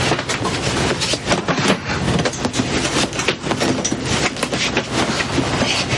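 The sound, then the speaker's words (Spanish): Train carriage rolling on rails as passengers board and settle into a compartment: a dense, steady rumble with constant rattling and clatter, with no talk. “Vicky y Ramón suben a un vagón y buscan su compartimento. Colocan el equipaje en las baldas sobre los asientos.”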